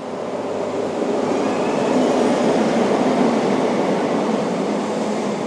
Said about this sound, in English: the train just pulling in